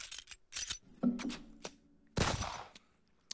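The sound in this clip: A voice imitating gunfire in a theater, quiet sputtering bursts of mouth noise in an uneven rhythm, with one longer, louder rattling burst near the end followed by a final sharp pop.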